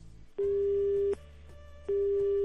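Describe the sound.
Telephone busy tone after a dropped call: two steady mid-pitched beeps of equal length with a short pause between them, over a low background hum.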